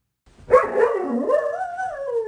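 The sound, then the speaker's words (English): A playful bark from an almost two-year-old female dog, a lab and hound or pointer mix: one drawn-out, wavering yodel-like call that starts sharply, then stretches into a long howling tone that slowly falls in pitch. “She's almost 2 years old, and that's her play bark.”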